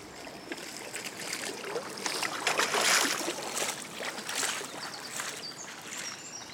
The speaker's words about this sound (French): j'entends la glisse du bateau, l'étrave, la pointe avant du bateau qui fend l'eau